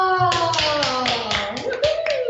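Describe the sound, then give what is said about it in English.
Rapid, steady hand claps during a breathwork exercise, repeating many times at an even pace over a sustained tonal drone that rises in pitch near the end. “And on the exhale, you're going to start clapping, moving those hands all the way around to break up energy.”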